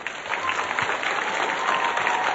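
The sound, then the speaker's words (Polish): Audience applause fills a rosary circles gathering at a sanctuary in Tuchów near Tarnów: dense, steady clapping from a large crowd continues without a break at an even, moderate level. “Wszystkich widzów telewizji Trwam, słuchaczy Radia Maria pozdrówmy gorącymi oklaskami”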